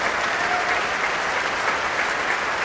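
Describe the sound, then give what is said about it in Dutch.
Enthusiastic audience applause after a performance of Ysaÿe's third violin sonata, a dense, steady wash of clapping that holds at an even, fairly loud level throughout. “Ja, nu hoort het, het publiek. Die is zeer enthousiast.”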